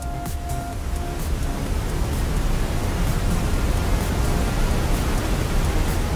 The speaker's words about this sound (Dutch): Ja, misschien denk je, wat is dit? Golven en witte ruis. Dat zijn geluiden die je op kunt zetten om je baby bijvoorbeeld beter te laten slapen.